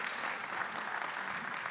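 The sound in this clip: Audience applause at a political talk event, a dense burst of many hands clapping together at a steady, fairly loud level for under two seconds, with no voices over it.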